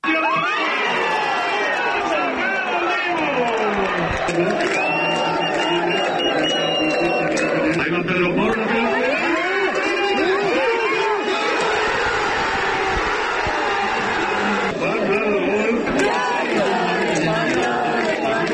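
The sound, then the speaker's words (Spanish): Crowd celebrating a World Cup final win, 1-0 with a goal in the 105th minute, at a public screening at Centro Botín: dense, continuous cheering, shouting and chatter that stays loud and steady throughout. “Sonido de anoche en el Centro Botín, uno de esos puntos en los que se pudo ver esta final que se sumaba a otros tantos rincones de la comunidad autónoma que vivían esta victoria con mucha emoción.”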